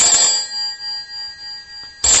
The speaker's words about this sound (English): I didn't even know it was ringing.